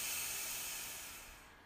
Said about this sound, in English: So deep breath in, extend your belly.